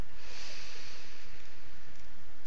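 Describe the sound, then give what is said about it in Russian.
A deep breath drawn in through the nose during a guided relaxation exercise: a steady, fairly loud airy rush that lasts about two and a half seconds, with no other sound. “И мы делаем глубокий вдох”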